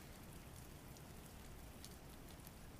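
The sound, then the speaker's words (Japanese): Rain falls as a faint, steady, even hiss, with no breaks and no voices. “雨の音を聞きながらこうして温かいものを飲むの結構好きなの”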